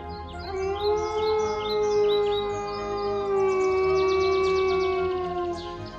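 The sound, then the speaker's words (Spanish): A wolf gives a deep, sustained howl that holds one strong steady tone with overtones for about six seconds, loud and unbroken, while faint high bird chirps sound above it. “Entonces se puso a dar saltos de alegría e inició un profundo aullido.”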